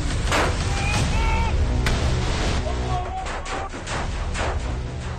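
Assault rifle gunfire from a played video of armed fighters landing beside a mock-up house and opening fire at once; loud, dense bursts of shots run continuously over a rumbling, noisy background.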